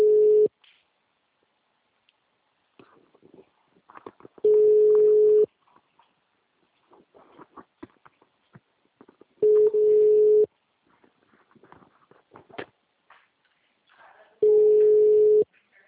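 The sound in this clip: An engaged telephone line gives a busy signal: four steady, mid-pitched tones, each about a second long and evenly spaced several seconds apart. Faint scattered noises fill the gaps.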